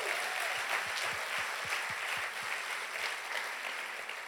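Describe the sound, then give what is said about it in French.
A church audience claps in praise during a bilingual French and English sermon. The applause is fairly faint and steady, with a run of regular heavier claps early on before it settles into an even patter. “Give the Lord a clap.”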